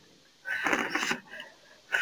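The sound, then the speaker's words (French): Breathy puffs of air blown at a lit candle to put it out: a long, hissing blow, then a weaker puff and one more short burst of breath, all fairly soft. “si vous éteignez votre bougie, vous mettez la main de ce côté-là et vous soufflez, sinon vous prenez votre main, mais vous soufflez.”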